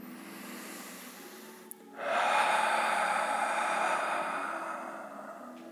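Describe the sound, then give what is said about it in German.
A deep, long exhale during a hip-focused yoga practice: after a quiet stretch, a breathy rush of air starts abruptly and carries on for several seconds, slowly fading away. “einmal mehr ausatmen, als du es normalerweise tust.”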